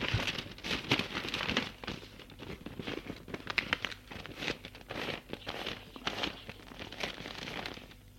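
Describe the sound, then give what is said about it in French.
Paper envelope crinkling as it is folded closed: continuous dense rustling and crackling, moderately loud and unbroken, with no voices. “Et voit que c'est une pub pour commander un livre. Elle referme l'enveloppe.”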